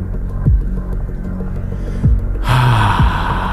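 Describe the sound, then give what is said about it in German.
A refreshed, breathy "ahh" gasp let out after drinking a good cola, a voiced sigh that rises over a low background rumble. “Okay, also ich finde das Geräusch, was man macht nach einer guten Cola.”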